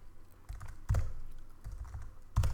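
Keys clatter on a computer keyboard as someone types notes in a Mac note-taking app, giving quick bursts of clicks with a couple of heavier thumps of a larger key.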